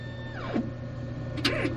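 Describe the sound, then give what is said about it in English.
Whirring and sliding motor sounds of laboratory robots purifying specimens for HPV testing, with a falling mechanical whine followed later by a short burst of movement, moderately quiet over a steady hum. “Right here, these machines actually are robots. We give our robots names.”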